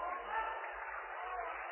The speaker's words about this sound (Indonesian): Tepuk tangan dulu. Emang gak capek tepuk tangan terus?